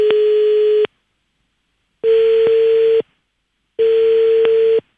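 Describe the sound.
Telephone tone on an outgoing call being placed, sounding as three loud, steady electronic tone bursts of about a second each, separated by even pauses, with no voices.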